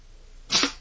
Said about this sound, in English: Oh, I heard it. I heard it hit. I heard it stick. Yeah, it did. I can't see, but I did hear it stick. The dart.